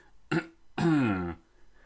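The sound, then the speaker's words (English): A dramatic throat clearing in two bursts: a short rasp, then a longer, voiced, rougher push that fades. No other sounds accompany it. “Better clear my throat dramatically for the sake of setting the scene, but also not do it so close to the microphone that it sounds really gross and puts you off.”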